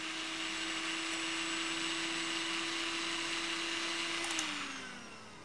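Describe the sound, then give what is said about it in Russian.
A blender switched on in a kitchen, its motor producing a loud, steady whine with a constant tone, then winding down near the end as the pitch drops and the sound fades. “включает блендер”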